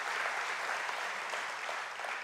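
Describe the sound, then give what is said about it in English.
A church audience applauds, dense steady clapping from many hands at a fairly soft level, blending into an even patter with no voices over it. “Yeah, you can clap.”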